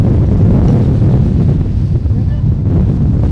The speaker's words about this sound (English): Oh, big, big wind gusts. I wouldn't mind the wind as much if the sand wasn't going with the wind.